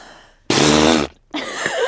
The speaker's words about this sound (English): wow, that was a really good fart impression